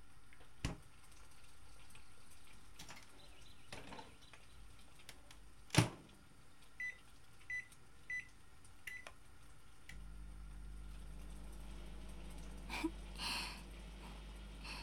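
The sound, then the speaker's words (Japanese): A microwave oven reheating cold grilled salmon: a few short electronic beeps, then a steady low hum as the oven starts running, with faint clicks and clatter before it. “焼き鮭は冷えてるからレンチンやな。”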